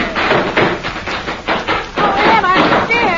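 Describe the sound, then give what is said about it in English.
Firecrackers pop in a quick, irregular string of sharp bursts on a street in Chicago's Chinatown, with a voice over the last part. “Oh, that was just firecrackers”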